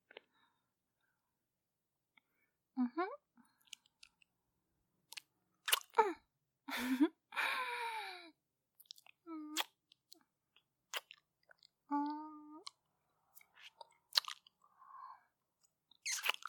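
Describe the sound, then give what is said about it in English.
Quiet, close mouth sounds of someone licking and chewing something salty. Many brief wet clicks, smacks and small crunchy bites come in irregular bursts, separated by short silences. “Can I lick it? I can? Oh, thank you. Okay, here I go.”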